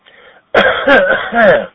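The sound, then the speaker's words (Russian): Coughing and throat clearing come over an amateur radio channel. A faint, thin burst is followed by a louder, longer rasping stretch with the narrow, filtered tone of a radio link. “Плохой кашель у вас, товарищ радиолюбитель. Явный коронавирус.”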